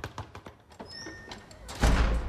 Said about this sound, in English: when the door opens and Burton steps in